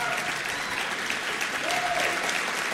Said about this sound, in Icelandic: Klappið fyrir þeim og þeir stilla sér upp í mynd.